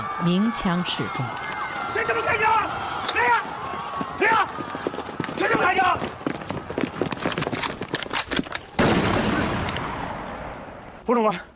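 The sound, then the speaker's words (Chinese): Gunshots fired in warning on a chaotic street during a 1946 student demonstration: several sharp, loud cracks burst out among agitated voices and a busy, clattering background. “冯玉祥路过这里，见状鸣枪示众”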